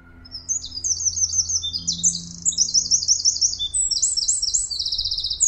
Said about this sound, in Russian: давайте напомним, как звучит крапивник, раз зарянку и крапивник иногда путают.